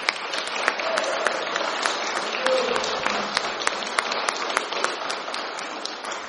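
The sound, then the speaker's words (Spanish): A church audience applauds as an offering to the Lord, a steady, dense patter of many hands clapping throughout, with a few sharper individual claps popping out above the mass. “¿Por qué no le damos al Señor una ofrenda de palmas? Why don't we give the Lord a hand?”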